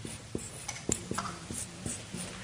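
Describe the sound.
Chinese characters being written by hand, many short, light scratching strokes and taps in an uneven rhythm, faint and alone.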